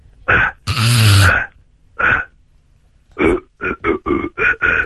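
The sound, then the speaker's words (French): Deliberately violent, forceful throat clearing in harsh, rasping bursts: a couple of short hacks around one long, gravelly rasp, a pause, then a quick run of short, loud, grating clears at the end. “Racle-toi la gorge de manière extrêmement violente, ça peut faire du bien, regarde. Très fort.”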